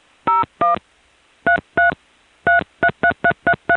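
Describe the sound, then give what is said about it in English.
Telephone dialing tones sent over a trunk line to a TSPS operator system: ten loud, clean tone bursts in uneven groups, first two, then two more, then a quick run of six, with no voices. “After TSPS gets the complete number I'm dialing, it goes off hook on the trunk to the 4E.”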